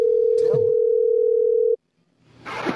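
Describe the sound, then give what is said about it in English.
Ringback tone on an outgoing phone call: one steady, mid-pitched continuous tone lasting under two seconds, then an abrupt cut to silence. Brief voice sounds occur near its start and again at the end. “Is it working? Yep. I hear it ringing.”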